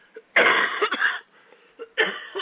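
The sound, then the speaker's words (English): Raspy coughing from a person with a lingering cough after an airplane trip, a cluster of harsh bursts followed by a short pause and another cough, loud and without talk. “As you can tell, I got a little bit of a cough from my recent trip on an airplane.”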